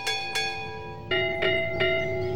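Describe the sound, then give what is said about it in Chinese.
A cheerful bell chime rings out in five bright, resonant strikes, two quick ones, a short pause, then three more, each tone sustaining and ringing on between hits. “欢快的铃声悠悠响起”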